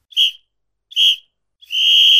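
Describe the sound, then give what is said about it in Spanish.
A referee's whistle blows for the end of a football match: three shrill blasts, two short ones followed by a longer held final blast, clear and alone. “acaba de sonar el silbato de final del encuentro”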